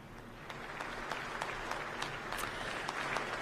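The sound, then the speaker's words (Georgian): Standing ovation in the Ukrainian parliament for the Polish president: dense, steady applause from many hands, a continuous crackle of claps that holds at an even level for the whole stretch. “უკრაინის პარლამენტის სპიკერი აცხადებს და მიესალმება ანჯეი დუდას ფეხზე ადგომით და ტაშით შეხვდა პოლონეთის პრეზიდენტს.”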